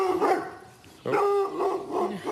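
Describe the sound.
A farm dog barks in a sheep paddock where working dogs are trained: a few sharp, tonal barks and yips in an uneven rhythm, moderately loud, with no talk.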